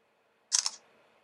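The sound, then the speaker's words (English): A phone camera shutter firing as a picture is taken: two quick, bright clicks within a fraction of a second, fairly faint and heard alone against near silence. “Okay, so I took a picture.”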